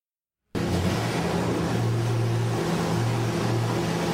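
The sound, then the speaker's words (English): Engine of a Chevy American muscle car, a steady low throaty rumble with broad noise above it, starting abruptly after a brief silence and holding an even level throughout. “I believe that's a Nissan. Oh no, that's a, I think that's a Chevy. There we go. Good old American muscle.”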